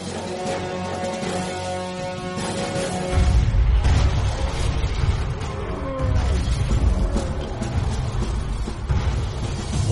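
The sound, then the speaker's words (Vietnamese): Gun-carrying war elephants roaring in a night attack on a fort: a dense, rumbling din that swells loud after the first few seconds, with tonal bellows mixed into broad noise. “Gầm thét trong đêm, hàng hàng voi chiến có gắn cả quả súng trên lưng tấn công dồn dập vào đồn Khương Thượng của quân Thanh.”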